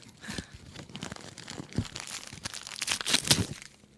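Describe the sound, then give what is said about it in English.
Crinkling and tearing as a package sealed with lots of tape is unwrapped: many irregular crackles and sharp rips of tape and wrapping, building in density and loudness toward the end before trailing off. “Should I open it? Well, it's not Christmas yet, but... Oh. All right, go ahead. Okay, all right. Yeah. A lot of tape.”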